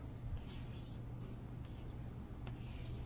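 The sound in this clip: Lattice cells being drawn on a board: a faint, continuous scratchy rubbing of marker or chalk strokes with a few slightly sharper strokes, low and steady throughout.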